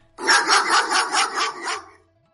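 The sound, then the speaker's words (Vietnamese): A dog barks in a quick run of about six sharp, evenly spaced barks that fade out at the end. It is one of four dogs being led by guards and tied to a tree trunk. “Lúc này, phía đối diện chợt vang lên tiếng chó sủa.”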